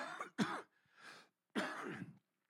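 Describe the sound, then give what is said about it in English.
Throat clearing and coughing from a preacher with a troubled throat: a few harsh, rough bursts separated by short pauses, fairly loud and with no talk. “But I have no idea what's going on with my throat. Excuse me. I'll cough like that a couple times.”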